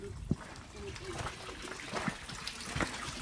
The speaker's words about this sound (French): c'est là que les animaux à l'époque buvaient, et c'est le point d'eau en fait de la ferme, tout simplement. On va se rapprocher un peu, on va en profiter.